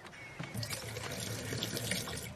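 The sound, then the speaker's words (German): Water runs into a drinking glass, a faint, steady splashing trickle lasting about two seconds with no pauses. “Ja, hier, füll dieses Glas mal mit Wasser.”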